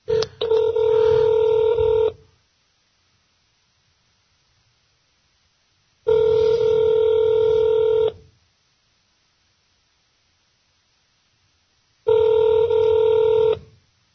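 A telephone call to a listener is placed live on a radio show for a birthday greeting. Three loud, steady electronic tone bursts, each about two seconds long, are separated by roughly four seconds of silence.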